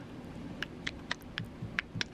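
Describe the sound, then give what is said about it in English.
Keys tapped on a computer keyboard, a run of light, fairly evenly spaced clicks over a low steady hum, with no one speaking. “You know what's funny is it's just literally just typing that in.”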